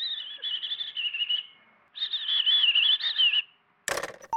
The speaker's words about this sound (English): And this is what a robin sounds like.